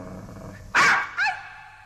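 A dog growls low, then breaks into two sharp, loud barks in quick succession. The snarls sound as if it is about to bite, and the growl trails off afterward.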